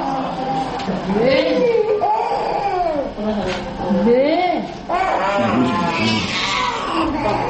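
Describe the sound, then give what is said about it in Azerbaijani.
Babies cry at a medical centre, giving several loud, high-pitched wails that rise and fall in repeated bursts. “Simya mərkəzində ancaq körpələr belə yanğılı ağlayırlar.”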